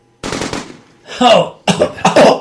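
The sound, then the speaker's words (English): Gunshots in a double tap to the head: a few loud, sharp bursts in quick succession, with short gaps between them. “Double tap to the head. Oh. Headshot. Headshot.”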